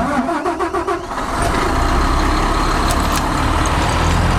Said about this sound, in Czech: Budu startovat rychloběžný drtič.